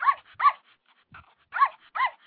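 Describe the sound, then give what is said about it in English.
Small yappy dog barking, played as a sound effect: four sharp, high-pitched yaps that fall in two pairs, with fainter, softer noises between them. “that sounded like a yapper. We need a real dog in here.”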